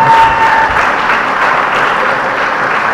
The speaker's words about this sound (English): Can we give them a hand?